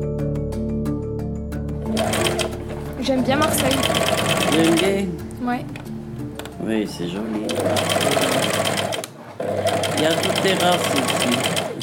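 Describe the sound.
Sewing machines whir in a shop, running in long, steady bursts with brief pauses between runs while people talk over the mechanical hum.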